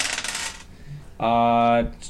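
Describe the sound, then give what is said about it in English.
Dice are rolled during a tabletop role-playing game, making a short rattling clatter and then a brief bright metallic ringing that lasts under a second. “Now you have to roll for hobbies. Or a hobby. Roll.”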